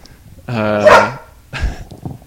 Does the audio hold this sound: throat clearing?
no